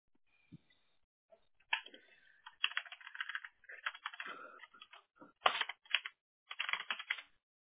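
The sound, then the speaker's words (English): Typing on a computer keyboard: many quick keystrokes in irregular bursts and short runs, broken by brief pauses, fairly faint and with no voices. “Let me type it as Google Guaranteed because they changed the names”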